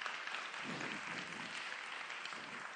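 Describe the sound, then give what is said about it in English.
An audience applauding a newly married couple at a church service: steady, dense clapping that holds evenly throughout at a fairly soft level. “So let's give them a hand. Angel's not here, but let's give them a hand.”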